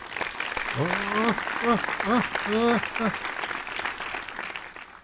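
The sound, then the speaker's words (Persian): Applause from a group of people, many hands clapping in a continuous, moderately loud wash while a voice talks over it through the middle. “خب راستی برای دلارام دست نزدیم.”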